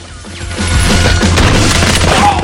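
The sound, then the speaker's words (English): Gunfire as an armed group opens fire on a rival mob on a sun deck: a dense, loud, continuous volley of booming shots that swells in about half a second in and roars steadily to the end, with no voices. “Don Kim's armed group of men fire at Carlito and his mob.”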